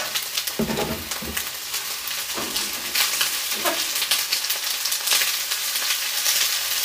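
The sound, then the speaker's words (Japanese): Cut vegetables stir-frying in sesame oil in a pan, a continuous crackling sizzle broken by a few louder bursts as the vegetables are stirred and tossed. “野菜炒めってさ、ほんと単純に美味しいよね。もうカット野菜でやってるんで超一瞬です。”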